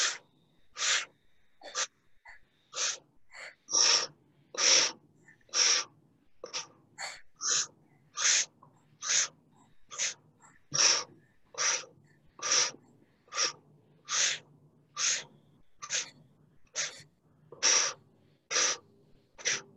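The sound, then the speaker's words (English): Forceful exhales in a Kundalini breathing exercise: many short, sharp, breathy bursts repeating in a fast, even rhythm, each a hissing puff of air, with quiet gaps between them. “So really powerfully exhale so you can let release as much as possible.”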